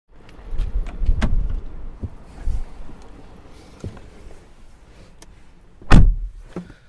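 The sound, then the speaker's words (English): Someone gets into a car to drive, with soft rustling movement, faint jangling and scattered clicks inside the vehicle, and a sharp heavy thud near the end. “The steering wheel's on the wrong side here. Alright. First time driving on the right side.”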